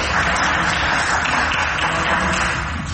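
Applause in parliament after a vote electing a judge to the Court of Cassation, a dense, even wash of many hands clapping that holds steady for the whole three seconds.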